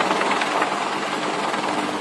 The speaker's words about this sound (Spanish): por TikTok, donde se observa un helicóptero que sobrevuela y rodea la embarcación